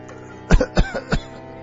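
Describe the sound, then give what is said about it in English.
A man coughs a few times in quick, harsh bursts, loud and alone, with no talking. “His eyes remained dull and fixed as he coughed through his confession.”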